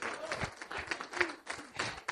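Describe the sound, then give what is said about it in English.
A church audience claps hands in a loose, fairly quick rhythm of sharp slaps, with voices mixed in among the claps. “Come on, clap your hands for Jesus.”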